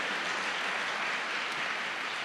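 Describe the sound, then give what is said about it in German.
Congregation applause during a church service, a faint, even hiss of many hands clapping together, steady from start to finish with no voices or distinct single claps standing out. “Komm, wir geben Gott schon mal vorab einen Applaus, weil sie so gut ist, weil er so ist.”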